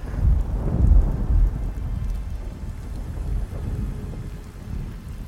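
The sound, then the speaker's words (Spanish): Rain beats hard on the window of a small room while thunder rolls. A deep rumble swells loudest in the opening seconds, then settles into steady, dense rain noise. “Las gotas de fría agua furiosas rebotaban incansables en la ventana del pequeño cuarto. Los relámpagos se sucedían uno tras otro junto con los martillantes truenos”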